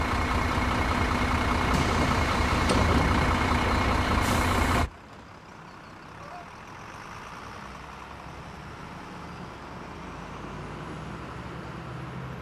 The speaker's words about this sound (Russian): Приехал автобус.